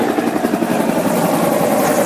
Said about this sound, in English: And there are some helicopters going overhead.